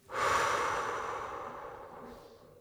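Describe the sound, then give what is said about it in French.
A long, breathy exhale during a calming breathing exercise, breathed out through the mouth. It starts strongly and fades gradually over about two seconds, with no voice over it. “Inspire par le nez. Fais rentrer l'air et le calme dans ton corps. Gonfle ton ventre et souffle l'air par la bouche.”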